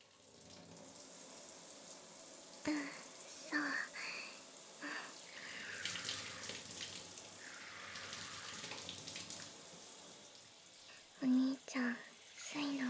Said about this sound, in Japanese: シャワーを手に持たせてほしいって。そっか、最初はお湯で汗を流さないとだよね。